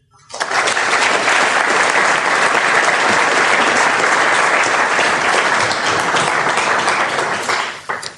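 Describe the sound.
Audience applause welcomes speakers at a London School of Economics event. Loud, dense clapping rises quickly and holds steady for about eight seconds, then fades away at the end.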